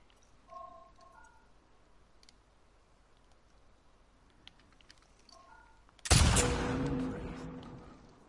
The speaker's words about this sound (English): Make sure to compensate for the bullet drop. Bullets drop with gravity. Aim higher to compensate.